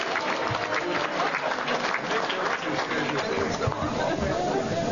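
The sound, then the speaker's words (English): Award winners at a chapter awards event receive loud, dense applause from the audience, a continuous wash of clapping mixed with crowd chatter and scattered voices. “All right, let's give them all a big hand.”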